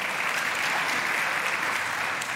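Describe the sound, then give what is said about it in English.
An audience gives a round of applause at a church service, producing a thick, continuous crackle of many hands clapping at once. The applause holds at an even level throughout without pause. “Let's give God and her a round of applause for that.”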